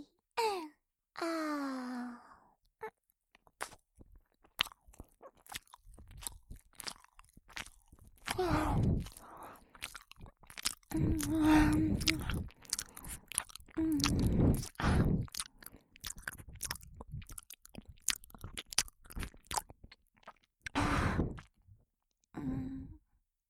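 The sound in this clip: Food is bitten and chewed in many crisp, crunchy bursts separated by short pauses, opening with a drawn-out voiced sigh or moan before the chewing starts.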